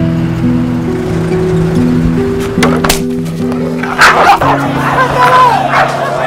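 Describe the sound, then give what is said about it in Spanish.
Dogs at a dog fight let out a few sharp barks and yips, growing busier toward the end, over sustained low, steady tones. “¿Tú crees que una pelea de perros sea lugar para un niño?”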